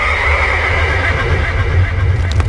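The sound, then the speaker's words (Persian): A horse's neigh sounds as a loud, unbroken whinny over about two and a half seconds, heard alone without any speech. “اسب سهراب شیهی کشد که کوه ها را به لرزه در و صدایش به آسمان می رسد”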